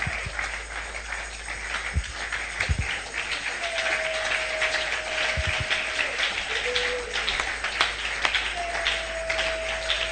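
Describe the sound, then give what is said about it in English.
Audience applause at a religious gathering, dense and sustained from start to finish, with a few thin whining tones drifting above the clapping. “Are you clapping? Clap, clap, clap, clap, clap, clap.”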